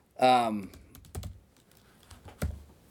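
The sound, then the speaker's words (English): Key clicks from a computer keyboard as a discount code is typed in, a few sparse, light taps spread across the moment after a brief voiced sound at the start. “I'll type it in here just so you see what it looks like”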